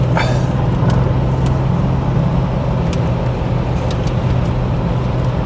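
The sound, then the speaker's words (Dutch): Road noise as an Audi car passes on the road: a steady, continuous rumble of engine and tyres that holds at an even level throughout, with no sharp peaks. “Even snel een Audi voorlaten.”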